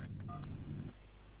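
A single telephone keypad tone for key 1, pressed in an after-hours phone menu: a short, steady, two-pitched beep over a low background hum.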